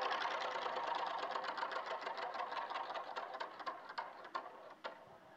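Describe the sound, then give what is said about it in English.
A prize wheel being spun gives off a rapid run of ticking clicks that gradually slow and spread apart toward the end, with no voices. “And then you just want to spin the wheel, and then we'll just see what it lands on”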